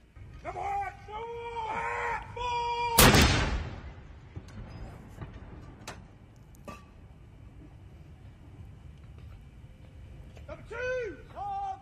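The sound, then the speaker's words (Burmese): One heavy gun report from the 62-round royal salute fired at the Tower of London for Charles III's coronation: a single loud boom that decays over about a second, with people talking before and after it. “တတိယမြောက်ချားလ်စ်ဘင်းရဲ့နန်းတက်ပွဲအတွက်တော်ဝင်ဂုဏ်ပြုတက်ဖွဲ့ကလန်ဒန်မျှော်စင်းကနေတနက်62ချက်ပြစ်ပေါက်ပြီးဂုဏ်ပြုလိုက်ပါတယ”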